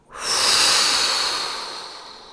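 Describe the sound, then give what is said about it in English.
A deep breath drawn in through the nose and blown out: one long airy rush that swells quickly, holds, then fades gradually, with no talking. “With this last breath, we're coming all the way back in. Big inhale through your nose and blow”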